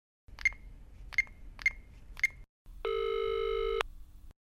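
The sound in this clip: Telephone signalling an incoming call: four short, high, evenly spaced beeps, then a single loud, steady buzzing ring lasting about a second, with no voices.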